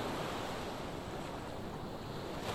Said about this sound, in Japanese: 波の心地よい音、気持ちのいい風